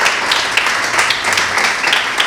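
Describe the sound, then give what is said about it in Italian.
Audience applause welcoming a speaker at a corporate event: dense clapping from many hands that holds a steady loudness for the whole stretch, with no voices over it. “vi chiedo di accogliere con un bel applauso Vittoria Gozzi”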